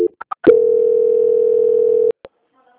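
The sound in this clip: Telephone call transfer tone: a few short blips and clicks, then one steady mid-pitched tone holding for about a second and a half before cutting off, followed by a brief click.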